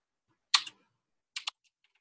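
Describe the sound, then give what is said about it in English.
Someone types on a computer keyboard while writing a PwnTools script. Two short bursts of crisp key clicks are separated by a pause, and a few faint taps follow. “I'm going to go ahead and start writing this in PwnTools.”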